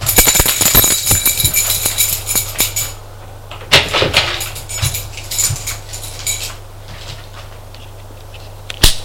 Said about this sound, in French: sort de l'ascenseur et va ouvrir la porte de son appartement.